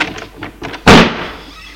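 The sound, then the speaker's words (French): A door is flung open with one loud, sharp bang that fades over about a second. Faint, scattered knocks and rustles come just before it. “La porte s'ouvre d'un coup.”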